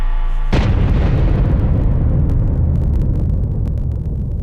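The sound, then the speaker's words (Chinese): A full-scale detonation test of a Chinese nuclear device: one sharp, heavy blast bursts in, then rolls on as a long, loud rumble that fades only slightly over several seconds. “6月6日下午5时左右，全尺寸爆轰试验准时点火。”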